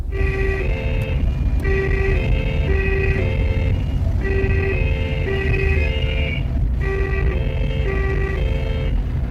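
A police car siren wails in a loud two-tone pattern, alternating steadily between a high and a low pitch and repeating throughout over a low engine rumble.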